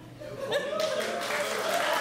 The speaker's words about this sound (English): How many of you, by a round of applause, would have chosen roof?